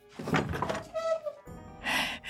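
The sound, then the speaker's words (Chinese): A door is pushed open into an auction hall: a few dull thunks and a brief creaking squeak, then a final broader burst of sound, all moderately loud. “直到有人推门而入，对着陆祖德点头哈腰”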